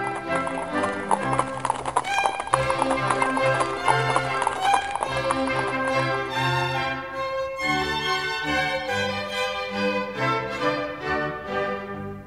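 Horse hooves clip-clop steadily as a horse strains to pull a carriage uphill, the rhythmic hoofbeats running under continuous music for the whole clip.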